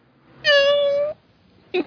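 A cat meows in a movie scene: one long, steady, clear meow, then after a pause a short second meow.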